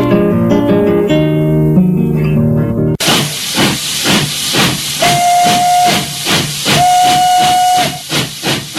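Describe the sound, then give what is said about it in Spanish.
A steam train chuffs with loud rhythmic hissing bursts and sounds two long, steady whistle blasts, after a few seconds of music. “El tren hizo una parada en una estación sin pueblo”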